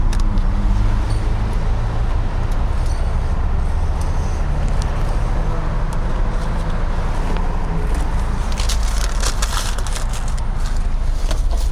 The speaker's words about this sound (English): This is what a Focus RS sounds like.